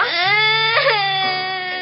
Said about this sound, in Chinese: 瞧你哭成这个样